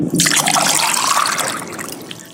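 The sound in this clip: Holy water is poured in a steady, splashing trickle of liquid that eases off slightly toward the end. No one speaks.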